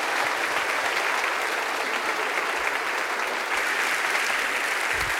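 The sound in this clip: Audience applause welcoming a speaker at a morning talk: dense, loud, steady clapping that fills the whole stretch without letup and with no voices above it.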